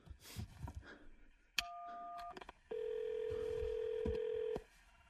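Telephone keypad tones on a call to an office: a sharp click, a steady two-note beep under a second long, a few clicks, then one longer, steady single tone of about two seconds, with faint background noise before it.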